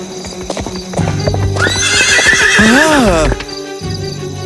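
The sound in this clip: A horse on a street whinnies loudly, its neigh wavering up and down in pitch, while its hooves clip-clop in a steady rhythm before and after the call.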